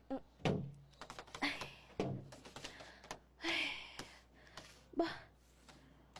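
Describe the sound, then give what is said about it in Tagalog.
A house gate being opened gives faint, scattered clunks, taps and rattles, with a few firmer thuds among lighter clicks over several seconds. “Bukas ng gates ng balay? Siguro ari na si Jacob.”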